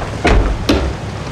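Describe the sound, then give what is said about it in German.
A wheelhouse door on a boat is slammed shut, giving two loud, sharp thuds about half a second apart, then quiet. “verschwand wieder im Ruderhaus und schlug die Tür zu.”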